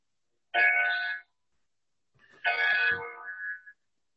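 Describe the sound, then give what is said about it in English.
A clock chiming the hour with bell-like tones: a short ringing chime, a pause, then a longer chime with a lingering tail, both clear and fairly loud against silence. “there's some kind of a bell here. Okay. I think it meant to say 9 o'clock. It was a clock.”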